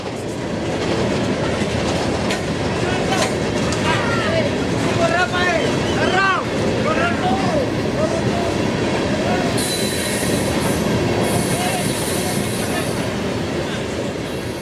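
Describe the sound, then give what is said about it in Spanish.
A freight train in Mexico rolls past on the tracks: a loud, steady rumble of wagons and wheels, with squealing metal tones rising above it midway and a brighter high hiss toward the end. “Cuando Rosa y Bernarda pasaron cerca de las vías del tren, contemplaron el paso de la bestia.”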